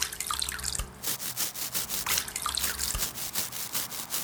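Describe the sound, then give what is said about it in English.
A mud-covered bulb is being washed in water, giving soft repeated splashing, dripping and rubbing sounds in an uneven rhythm, fairly quiet throughout. “Oh, that looks like a ball covered in mud. Let's wash it and see what's underneath.”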